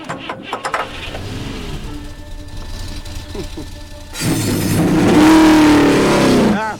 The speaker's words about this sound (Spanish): ¡Caballeros! ¡Enciendan sus motores!